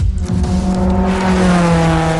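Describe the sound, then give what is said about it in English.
Race cars roar off turn four on the final lap, running close to the wall at nearly 60 kilometers per hour. Their engines make a loud, continuous, overlapping drone with steady tones throughout. “we are coming off turn four with the final lap, barely inches separating these vehicles from the wall. Blind turns at nearly 60 kilometers per hour.”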